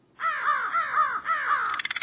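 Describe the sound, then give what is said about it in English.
Crows caw in a rapid series of harsh, ringing calls, ending in a burst of quick, clipped croaks. No other sounds are heard. “You need look no further than the nearest flock of crows.”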